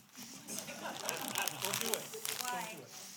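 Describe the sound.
A tangerine being peeled, its rind crinkling and tearing in a continuous run of papery rustles and small snaps, with a voice speaking over it.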